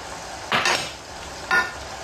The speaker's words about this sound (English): and half a tablespoon of paprika. Stir it well together, huh? Just a pinch of salt.